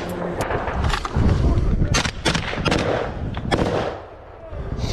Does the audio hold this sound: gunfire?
yes

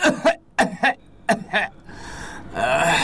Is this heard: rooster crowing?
no

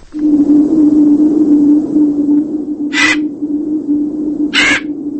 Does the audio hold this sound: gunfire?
no

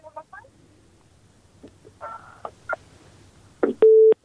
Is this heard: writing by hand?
no

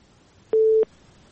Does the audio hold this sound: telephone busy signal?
yes

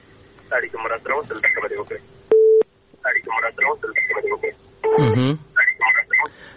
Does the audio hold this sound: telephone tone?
yes

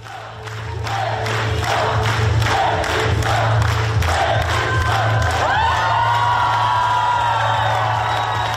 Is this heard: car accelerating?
no

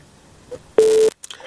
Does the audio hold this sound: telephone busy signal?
yes

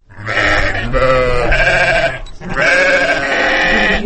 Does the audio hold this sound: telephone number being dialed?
no

